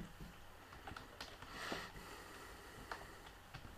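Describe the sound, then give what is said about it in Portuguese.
Faint keyboard taps as a password is typed on a computer keyboard: several soft, irregular clicks spread across a quiet background. “Bom, vamos escrever aqui a minha senha.”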